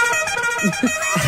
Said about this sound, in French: Les autres klaxons, c'est quoi ?